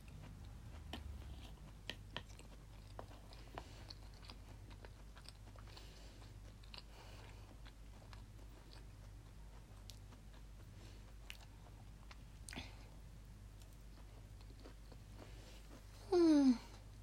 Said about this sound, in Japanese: あーベーコンもいい感じに味付けされてます。